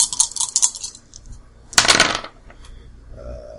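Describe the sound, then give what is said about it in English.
Dice rolled in a tabletop game: a quick run of bright rattling clicks, a pause, then a louder clattering tumble, followed by a faint low hum. “So 1, close. 2. Oh, but I still got 3 dice to roll.”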